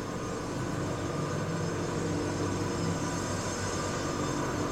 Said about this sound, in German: Was ich sehe, ist jetzt die geöffnete Wolle. Kommt auf das Förderband und die geht nachher Richtung Waschstraße.